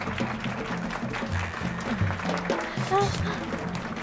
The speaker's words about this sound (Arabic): زقفة كتير قوية لبهنام.